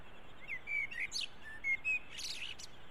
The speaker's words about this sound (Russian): Смотри. Дрозд.